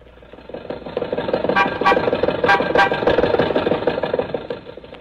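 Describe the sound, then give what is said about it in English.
An old Maxwell car's engine runs as a chauffeur drives it to Hollywood Boulevard. It makes a rough, knocking rattle with sharp squeaky bursts and uneven sputters throughout. “Mary, Don, and I got into Maxwell, and Rochester drove us over to Mr. Mortimer's office on Hollywood Boulevard.”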